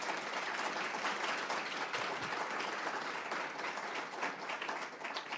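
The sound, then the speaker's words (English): Audience applause at the end of a public discussion event, a loud, dense, steady wash of many hands clapping that lasts throughout. “Let's give it up for Jeffrey, please.”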